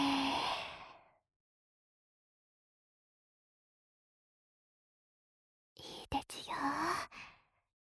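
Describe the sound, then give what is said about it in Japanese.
A long breathy exhale like a sigh during a guided deep-breathing exercise, loud and alone, followed after a silent pause by a short voiced breath sound. “大きく息を吸って、吐いて、”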